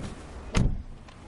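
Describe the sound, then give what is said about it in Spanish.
A car door shuts with one solid, low thump as people get into the car, a brief loud burst standing out against quiet background noise. “Fuera, Jack se entra en el coche. La doctora sube al asiento del copiloto.”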